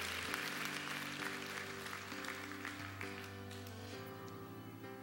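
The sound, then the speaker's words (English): A church audience applauding to welcome new members, a faint, even wash of clapping over sustained keyboard chords. “can we put our hands together and welcome people into God's family today?”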